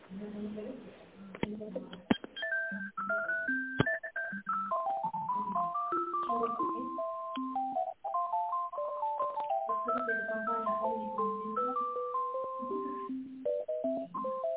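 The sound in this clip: A phone line playing a melodic electronic ringtone while a business call is being connected, a continuous stream of bright, stepping notes heard through thin telephone audio, with a few faint clicks.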